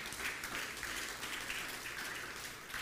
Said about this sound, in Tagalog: One more time, palakpakan po natin yung Panginoon.